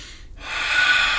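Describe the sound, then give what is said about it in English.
A deep breath is drawn in sharply through the nose, a loud, airy snort-like inhale that builds in strength and holds steady. “So see how I breathe like that?”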